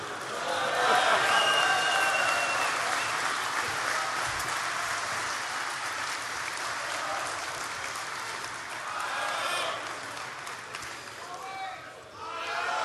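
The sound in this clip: Audience applause greeting the chairman of a Catholic men's conference, a dense, steady clatter of clapping that swells near the start and thins toward the end.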